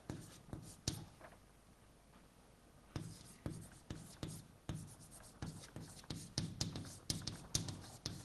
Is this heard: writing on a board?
yes